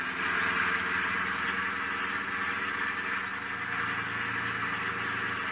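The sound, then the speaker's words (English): Car engine drone as the driver steps on the gas, a fairly faint, steady, muffled hum with a low rumble running unbroken throughout. “I stepped on the gas.”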